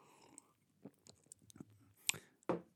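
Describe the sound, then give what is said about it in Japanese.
Someone drinks coffee: a few quiet sips and swallows with small mouth clicks over near silence, the last two sounds a little louder. “ちょっと待ってください、コーヒーを飲みます。”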